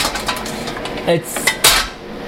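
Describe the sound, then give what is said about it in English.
A metal splatter guard handled and set onto a pan used for browning, a few light metallic clinks and rattles building to a louder clank near the end, with no talking. “It's like a, what is it called? Splatter guard that I put on top of my pan when I'm doing browning.”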